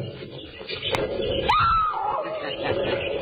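Caged animals squeal from insulated cages behind steel cabinets: a single shrill, drawn-out squeal jumps up in pitch and then wavers, standing out above low murmuring.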